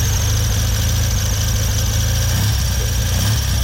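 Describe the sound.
A Triumph TRW 500 military motorcycle engine from 1956 idles in a dense, steady, even rumble that stays loud and unchanging throughout, with no talk.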